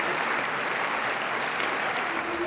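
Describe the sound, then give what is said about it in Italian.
Sustained audience applause rings out at the end of a film screening at the Cannes Film Festival, in the Salle Lumière with over 2000 spectators, a thick, even roar of clapping that holds steady throughout. “Gli applausi alla fine della proiezione sono un'esperienza unica.”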